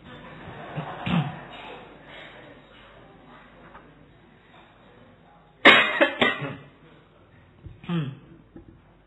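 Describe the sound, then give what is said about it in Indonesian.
Audience members cough during a philosophy study gathering. A few sharp, scattered coughs stand out over a quiet background, with one louder burst of coughing midway and another near the end. “Ayo lomba batuk.”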